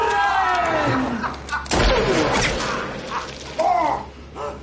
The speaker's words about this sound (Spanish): A cámara lenta, Mowry le dispara.